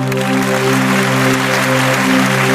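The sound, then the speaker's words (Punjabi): Audience applause at a gathering: dense, continuous clapping holds at an even level throughout, layered over a steady tonal hum. “ਇੱਕ ਵਾਰੀ ਸੱਚਾ ਪਿਆਰ ਕਰਨ ਵਾਲੀਆਂ ਰੂਹਾਂ ਦੇ ਨਾਂ ਤੇ ਤਾੜੀ ਮਾਰ ਦਿਓ ਜਰਾ।”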